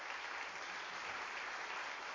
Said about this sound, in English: Can you give Lord a great clap offering this morning?